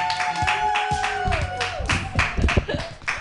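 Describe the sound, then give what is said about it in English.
Audience applause welcoming a comedian onto the stage at a comedy show, a dense patter of overlapping claps mixed with crowd noise and a sustained tonal sound. “All right, everybody, put your hands together for your first comedian.”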